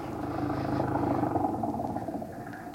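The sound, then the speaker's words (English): An old flivver car's engine rumbles in a steady, continuous low drone. It stays at an even loudness throughout, with a rough clattering texture. “Hop in. It was an old flivver.”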